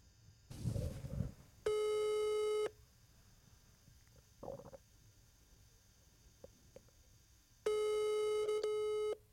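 A telephone busy tone sounds after a call is hung up: two long, steady, high beeps separated by a quiet gap, with a low bump just before the first tone.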